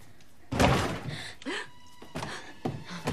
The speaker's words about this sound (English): Someone is trying to get through the front door.